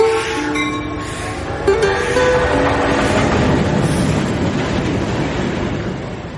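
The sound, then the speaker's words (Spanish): A freight train of wagons bringing food supplies to a Bolivian mining town rolls in with a steady, loud rumble and rattling clatter, with brief metallic tonal squeals in the first couple of seconds. “El 23 en la mañana llegó el tren carguero donde siempre traían papa, verdura, arroz, los alimentos para la pulpería. Llegaron los vagones, pero se quedaron en Cancañiri.”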